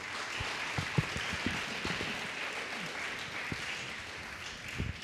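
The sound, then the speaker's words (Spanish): A church audience applauds for the Lord with dense, continuous clapping and a few sharper low thumps scattered through, holding an even level to the end. “¿Cuántos dicen gloria a Cristo Jesús? Denle un fuerte aplauso al Señor.”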